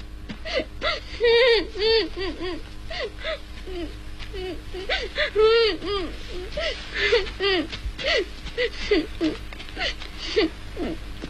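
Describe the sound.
A child crying in a drama scene: wavering, high-pitched whimpers and sobbing wails that rise and fall in broken bursts, continuing throughout at a moderate level.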